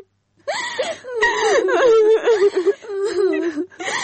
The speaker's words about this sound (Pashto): بس دی مه ژاړه